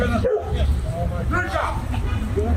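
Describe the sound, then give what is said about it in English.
A dog, one already listed as dangerous, barks and yips in short bursts during a tense street confrontation, under a steady babble of people talking. “so that was a dog already deemed to be a dangerous dog.”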